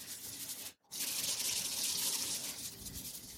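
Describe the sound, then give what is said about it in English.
Running tap water splashes while something is washed under it during home dinner preparation in a kitchen, a faint, steady hiss broken by one brief pause. “All right, let me wash this one. I'll wash it.”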